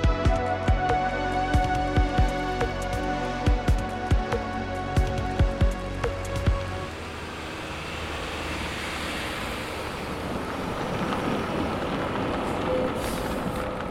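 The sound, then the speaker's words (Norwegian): Random street traffic makes a continuous rumble. A steady hum with rhythmic clicking fills the first half, then gives way to a broad rushing wash of passing-vehicle noise. “Det her er lyden av litt tilfeldig trafikk.”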